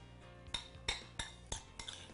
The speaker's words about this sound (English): Okay, a little bit of fresh squeezed lime juice, right? And that's really all you need. Mix it up nice.